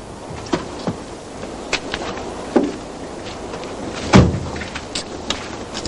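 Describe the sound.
A metal gate is opened, a few scattered clicks and rattles followed by a louder metallic clank near the end, over a faint hiss.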